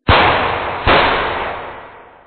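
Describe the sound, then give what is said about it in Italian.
Two carbine shots fired at a canoe, punching through bamboo: a loud sharp bang, then a second about three-quarters of a second later, each trailing off in a long fading rumble, with no voices. “2 colpi di carabina rintronarono, forando i bambù.”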